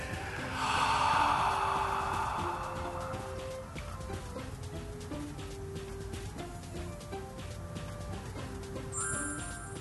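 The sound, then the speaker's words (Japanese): Deep breathing during a group breathing exercise: a long, airy breath rises loudly in the first seconds, then fades under soft, steady background music. “いきますよはい吸って吐いて”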